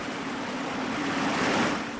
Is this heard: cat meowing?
no